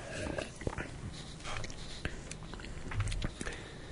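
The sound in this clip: Someone gulping down a sip of Arrogant Bastard beer: a few wet swallowing and mouth sounds with brief sharp clicks, set against a busy, noisy background.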